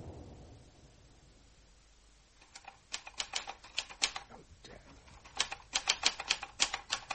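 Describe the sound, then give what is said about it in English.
Someone typing letters: after about two seconds of soft hiss, many sharp, irregular keystroke clicks begin and grow denser and louder toward the end, with no talking. “What are you typing? Begging letters.”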